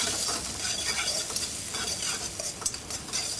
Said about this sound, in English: and then some roughly chopped shallots and tomatoes. Shallots, tomatoes, lots of ginger. I'll give it a quick sweat.